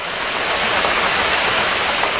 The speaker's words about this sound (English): That's a large ship, by the way.